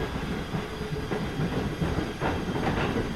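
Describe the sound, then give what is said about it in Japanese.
A Nagoya-bound passenger train runs along the rails with a steady, loud rumble and faint rhythmic clatter of wheels, with no voices. “この電車は名古屋行きの電車です。”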